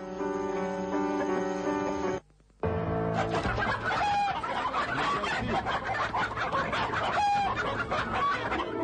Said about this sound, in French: Je vais attraper ce gros coq-là.